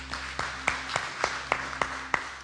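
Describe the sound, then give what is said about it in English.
An audience clapping hands for the Lord during a church service, a steady, rhythmic beat of about eight or nine claps that is fairly faint over a low hum. “So when it comes, go ahead, give the Lord a hand clap.”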